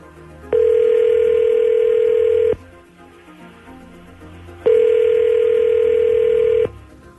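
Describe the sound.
Telephone tone as a call is placed: two long, steady electronic tones of about two seconds each, separated by a quiet gap, loud and unwavering in pitch, with no voices.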